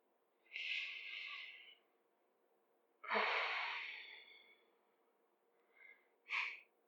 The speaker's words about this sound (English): A lot of deep breaths here, huh?